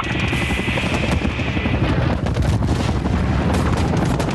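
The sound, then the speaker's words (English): RPG rocket launch in a video game firefight, set within a loud, continuous din of rattling gunfire and booms, with a throbbing helicopter rotor running underneath throughout. “RPG! A rocket's launched.”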